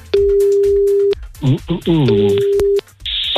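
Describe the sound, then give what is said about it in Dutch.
Telephone ringing tone while a call is being placed: two steady, mid-pitched tones about a second long, separated by loud voices talking. The speech continues over the second tone, and a brighter electronic noise follows at the end. “We gaan bellen.”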